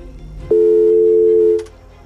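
A telephone line tone sounds as a phone call connects: one loud, steady electronic tone lasting about a second, followed by a couple of faint clicks.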